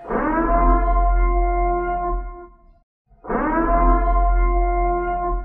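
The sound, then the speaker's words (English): The Purge start siren from the films blares in two long, steady, wailing tones, each rich with harmonics, separated by a brief silence around the middle. “That's right. It's the sound you hear when the purge starts.”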